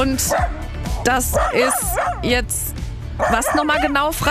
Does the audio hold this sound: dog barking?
yes